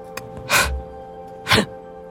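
Heavy, unusual breathing: two loud, sharp, gasp-like breaths about a second apart, with quiet between them over a faint low hum.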